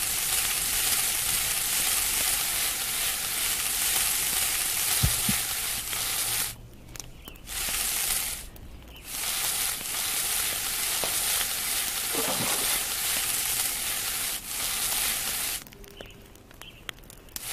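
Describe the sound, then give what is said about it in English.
Sizzling of a rabbit cooking on a fire in a video game, a steady, loud frying hiss that runs throughout and is broken by a few brief drops in level, with no talk. “Now, while I'm on the fire, hit the space bar. And my rabbit is cooking on the fire.”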